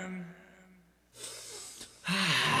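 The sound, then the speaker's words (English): A person gasping and struggling to catch their breath, with a few harsh, noisy, wheezing inhalations after a brief voice at the start; the final gasp is the loudest. “Breathe in real deep. See if you can catch your breath.”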